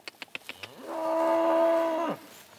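Cattle mooing on pasture in early summer: one long, loud, steady low moo that swells and then cuts off, preceded by a few short, sharp clicks.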